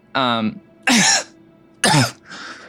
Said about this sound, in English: He actually coughs real bad.